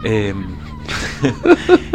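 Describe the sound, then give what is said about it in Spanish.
Manipulated seagull calls reworked into a rhythmic, rap-style pattern: a bright harmonic cry opens, then a few evenly spaced, punchy bursts land like beats toward the end. “es el mismo soundscape manipulado para hacer algo ritmático estilo gaviota rapera”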